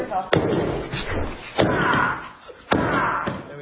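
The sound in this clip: Heavy thuds ring out as someone smashes open a sealed gun case: a few loud, sharp blows spaced about a second apart over a low, noisy background.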